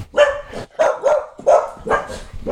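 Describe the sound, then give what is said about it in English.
Dogs barking in several sharp, loud bursts with short gaps between them, a quick irregular run of barks with no other sound around them. “Sorry for my dogs. Yeah. Dogs reacting to nothing.”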